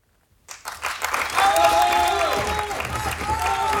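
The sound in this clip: Theatre audience applause with clamouring and cheering voices, rising after a brief silence into sustained, loud, dense clapping that holds steady to the end.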